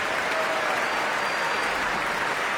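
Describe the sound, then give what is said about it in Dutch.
Concert-hall applause for the timpanist at an orchestra performance: a thick, unbroken roar of many hands clapping at a steady, loud level from start to finish. “En dit applaus is voor paukenist”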